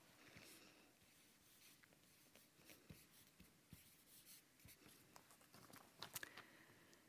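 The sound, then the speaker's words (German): Handwriting a word, with many faint, scratchy strokes and short taps in an irregular rhythm against a quiet background. “Ich schreibe jetzt einfach mal Friede.”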